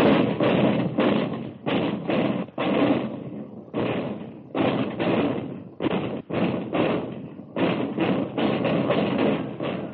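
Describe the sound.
Firing from a gun crew's twin-mounted automatic 75-millimeter radar-controlled anti-aircraft cannons: loud, dense thudding blasts in rapid runs, broken by brief gaps.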